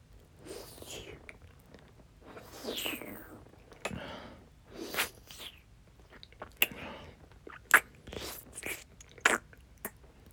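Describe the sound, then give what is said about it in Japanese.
Tongue licking with a flattened tongue: a quiet series of moist smacks, slurps and clicks, uneven in rhythm, with soft breathy, whisper-like noise between the wet sounds. “舌を平たくして舐めてる”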